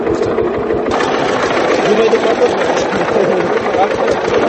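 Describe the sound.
A Chinese-made tractor engine runs steadily, making a loud, fast, rhythmic chugging that stays even and unbroken throughout.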